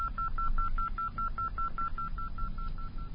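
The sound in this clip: Telephone keypad dialing a call: many short, evenly spaced beeps at one steady pitch in a quick, regular run, over a constant low hum.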